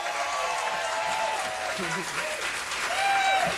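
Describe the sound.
Packed-house audience applauding at a live concert performance: dense, steady clapping that holds loud throughout and swells slightly near the end, with crowd voices mixed in.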